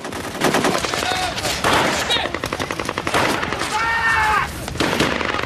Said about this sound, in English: They turn to let off a few rounds.